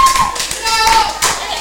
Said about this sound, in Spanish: Un aplauso para la señora aquí.